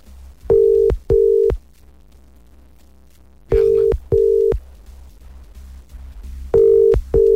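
Telephone ringback tone as a call is placed again: three pairs of steady mid-pitched beeps, each pair separated by a pause of about two seconds, with no voices.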